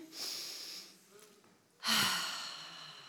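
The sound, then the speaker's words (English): A group taking a deep breath in together during a church prayer gathering: a softer airy rush of breath early on, then a louder, sustained breathy swell that slowly fades. “All right, guys, deep breath in with me.”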